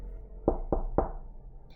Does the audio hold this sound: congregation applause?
no